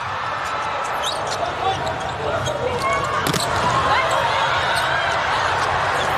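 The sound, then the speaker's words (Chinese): A volleyball serve struck by a Brazilian player during a match gives one brief, sharp impact about midway, barely rising above a steady, loud wash of background noise. “现在看看巴尔加斯的发球，厉害！”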